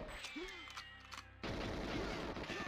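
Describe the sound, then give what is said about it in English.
Video game gunfire from several attackers shooting at the player, first faint with tonal sweeps and effects, then abruptly a dense, rapid burst of shots that continues to the end at low level. “So many people are shooting at me.”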